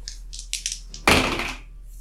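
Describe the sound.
An arrow thudding into wood: one sharp, loud impact midway through, fading over about half a second, preceded by a few faint, soft hissing bursts.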